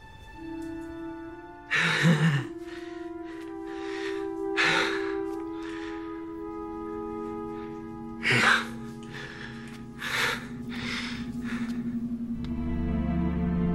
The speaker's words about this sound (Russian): Испуганно смотрит вперед, тяжело дышит, зажигается фонарь.